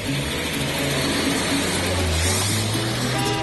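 Car engine accelerating at the start of a journey, a constant noisy hum with a low tone that climbs in pitch toward the end.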